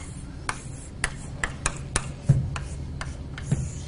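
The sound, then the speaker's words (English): A knot diagram drawn by hand gives many crisp, irregular taps and short scratches from the drawing tool, alone and fairly loud against a quiet background. “So let me just draw one more. I actually forget which way this one goes”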